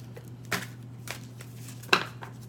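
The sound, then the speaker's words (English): A tarot card being pulled from a deck gives a few soft papery swipes and taps, the last slightly sharper, over a low steady hum. “I'm going to pull a moon card for you guys simply because we have a full moon this week”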